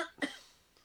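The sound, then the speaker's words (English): A single short, harsh cough bursts out once, fairly faint, then fades into near quiet for the rest of the moment with no talk around it. “Sorry, I'm going to cough a lot.”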